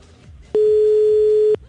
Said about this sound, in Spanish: Ahí está marcando, está timbrando.